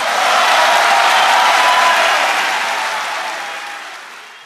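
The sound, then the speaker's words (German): FC Bayern fans give a standing ovation, a dense, unbroken roar of clapping that holds steady, then gradually fades over the final couple of seconds. “Ja, da hört man im Hintergrund die Standing Ovations, denn die Fans vom FC Bayern, die sind ihm treu.”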